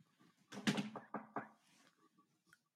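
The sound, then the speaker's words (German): Several quick knocks on wood land in a short, tight cluster. They are dull, fairly loud thuds against an otherwise quiet background. “Nein, ich muss jetzt Holz klopfen oder Kopf klopfen oder irgendwas. Nein, Gott sei Dank nie. Ah, ich klopfe schnell mit.”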